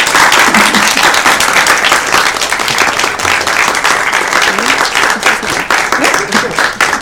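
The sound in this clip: An audience gives a speaker a warm welcome with loud, sustained applause: dense, continuous clapping that stays strong for the full seven seconds.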